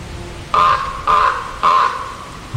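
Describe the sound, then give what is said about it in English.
A lone raven gives three harsh, rasping caws, loud and evenly spaced with short quiet gaps between them, and a fourth call is just starting as it ends. “Sometimes you'll see two ravens together, but usually you just hear one cawing like this.”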